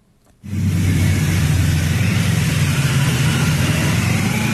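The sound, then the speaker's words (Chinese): Ceremonial cars departing from a residence in Beijing with a motorcycle escort: a deep engine rumble kicks in abruptly after a brief quiet moment and then holds at a steady, heavy level to the end. “七一勋章获得者集体乘坐礼宾车从驻地出发，由礼宾摩托车队护卫前往人民大会堂。”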